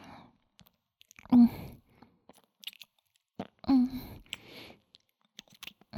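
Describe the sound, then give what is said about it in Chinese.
Crisp crunching and chewing as fried chicken is eaten, with a few louder crunchy bites among small clicking mouth sounds and voiced, breathy sighs in between, fairly quiet. “炸鸡吧，真好吃。”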